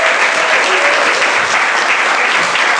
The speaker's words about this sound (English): Big round of applause, please.